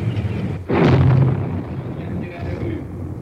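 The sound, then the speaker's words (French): Machine-gun fire with bullets striking a wall, on a street in Budapest during the 1956 Soviet tank occupation: one sudden loud crack bursts into a roaring volley of gunfire, then fades to a lower, rumbling din. “Mitrailleuse, vous entendez les balles qui claquent contre le mur.”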